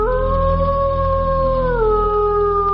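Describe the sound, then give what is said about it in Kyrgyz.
A she-wolf howls at the mouth of a cave: one loud, sustained, tonal howl that holds level, then drops in pitch near the end, with no other sound. “Тишин шакылдаткан, алар үңкүрдүн оозунда жайланып отурганда тумшугун көккө көтөрүп улуган.”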